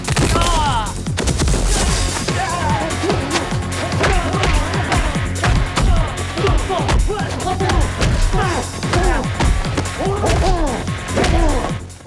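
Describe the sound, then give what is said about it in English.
Heavy thuds and smacks of a body hurled to the floor during a fight, set within a dense, rapid flurry of many sharp crashing impacts that runs through the whole clip. “Reptile hurls Lu to the floor.”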